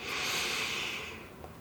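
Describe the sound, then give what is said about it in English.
A slow breath drawn in through the nose makes a soft, steady airy hiss that holds for about a second and then tapers off, heard alone. “begin breathing in through your nose. So let's take a slow breath in”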